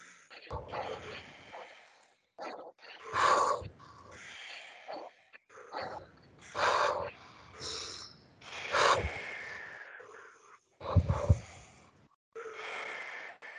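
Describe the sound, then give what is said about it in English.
A group practises a short-breath exercise in a meditation session: bursts of sharp, forceful nasal breaths and snorts come in clusters separated by brief silences, moderately loud, with sighs between rounds. “Okay? Let's start doing that short breath. Okay? Let's do it again.”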